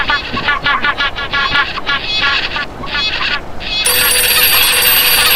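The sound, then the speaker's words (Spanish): A telephone rings: a steady, bright electronic ringtone begins about two-thirds of the way through and holds to the end, after a stretch of busy, honking, voice-like sounds. “Silencio, que está sonando el teléfono, amigos.”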